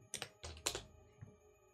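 Quiet computer keyboard typing as someone enters a search query, a short irregular burst of several soft keystrokes clustered early, then one last isolated tap before a fade to silence.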